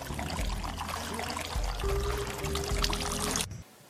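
A beverage being poured, heard as a steady, bright splashing stream lasting about three and a half seconds before stopping abruptly and leaving near silence.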